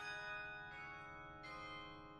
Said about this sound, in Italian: In quel momento le campane batterono le 17:30.